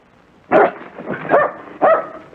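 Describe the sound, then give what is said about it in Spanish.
A dog barks in three loud, sharp bursts, followed by a short final yip, with no voices over it. “¡Ey! Espera, espera, espera. No ladres, no ladres.”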